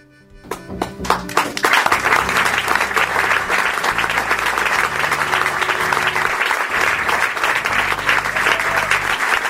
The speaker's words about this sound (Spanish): De mínima se merece un aplauso enorme, sin dudas, la gente cómo se puso, me encantó.